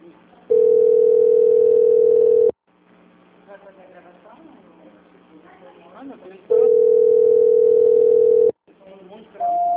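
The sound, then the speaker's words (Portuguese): A telephone ringing tone repeats on a call. Two long, steady rings of about two seconds each are separated by a pause in which people talk, and another, higher tone begins at the end. “Tá tocando aí”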